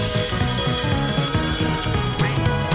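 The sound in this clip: A telephone rings for an incoming caller with a loud, steady, rapidly repeating electronic ring pattern in even pulses.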